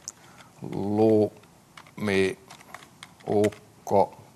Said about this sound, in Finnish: ja naputellaan tuo ohjelma. Aika nopea naputtele.